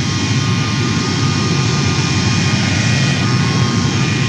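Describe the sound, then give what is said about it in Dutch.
Airliners, including KLM planes, taking off and landing at Schiphol airport: a loud, steady jet-engine roar holds at an even level throughout, with a broad rushing hiss over a deep drone. “De luchtreuzen van de thans veelbesproken KLM en van andere maatschappijen vonden op Schiphol over het algemeen een veilige haven voor start en landing.”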